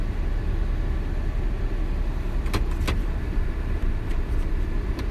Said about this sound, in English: I'm going to be driving backwards here into my driveway.